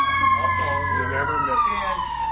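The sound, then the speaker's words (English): An emergency vehicle siren passes in Sierra Madre, a loud sustained wail whose pitch slides slowly downward over a low rumbling drone. “Let me wait till Sierra Madre's only siren in the world goes by.”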